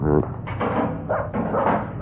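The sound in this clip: A dog barks inside a house: a few loud, harmonic barks in quick bursts, with some muffled background noise between them.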